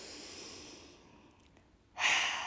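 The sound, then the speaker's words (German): A deep breath taken during a group invitation to pause and breathe. Quiet airy breathing gives way to one strong, loud, breathy rush of air in the last half second, with no talk. “Jetzt können wir alle gerade nochmal einen tiefen Atemzug nehmen.”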